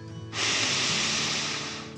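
One slow, deep breath during a relaxation exercise for children: a single steady rush of air that lasts over a second and a half and slowly fades. It is soft, and a faint low hum comes just before it.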